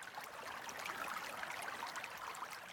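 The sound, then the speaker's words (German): A small winding river flowing at the foot of mountains gives a soft, steady rush of water with faint bubbling texture throughout. “In einem kleinen Tal am Fuße der Berge fließt ein gewundenes Flüsschen.”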